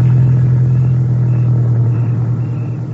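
A vehicle engine being driven, a steady low rumble with a strong droning hum that holds level throughout, loud and alone with no talk, easing slightly toward the end.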